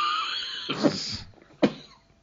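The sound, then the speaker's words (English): A productive, wet cough comes in two hoarse, throaty bursts separated by a short raspy gap, the second burst sharper and louder than the first. “That was a productive cough, by the way.”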